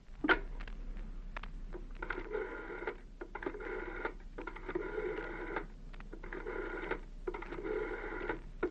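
A telephone being dialed in a household: several buzzing, warbling tone bursts separated by short gaps, steady and moderately loud over a low background hum, with no voices.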